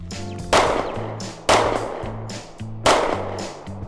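Three loud gunshots, each a sharp blast followed by a decaying tail, spaced about a second apart over a low sustained musical drone.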